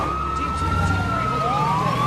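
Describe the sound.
Fire trucks race toward a plane with emergency sirens wailing, their overlapping tones sliding and sweeping continuously above a steady engine rumble.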